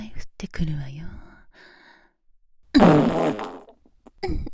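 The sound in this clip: A fart comes as one loud, rough, blaring burst in the middle, surrounded by soft, breathy whispered vocal sounds before and after.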